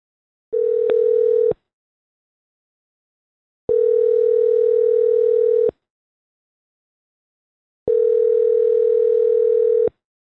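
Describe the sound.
A phone ringing out after a speed-dial call is placed: three steady, buzzing ringback tones with silent gaps between them. The first tone is shorter; the next two last about two seconds each.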